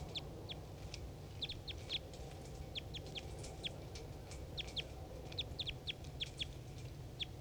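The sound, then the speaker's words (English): Wild bird calls from a decoy: many short, high-pitched chirps repeat in quick, irregular bursts over a steady low background rumble, faint throughout. “Decoy. Wild bird.”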